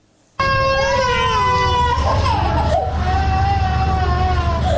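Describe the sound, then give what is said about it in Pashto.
Young children sick with diarrhoea cry in a provincial hospital ward. A loud, continuous wailing starts abruptly after a brief silence, its pitch wavering and sliding, and several voices overlap. “دا جړاوی د هغه ماشومانو دي چې اوس مهال تازه د ناسناست او یا هم د اسهال په ناروغي اخته دي چې دا مهال د ترینکوټ په ولایتي روغتون کې بستر دي”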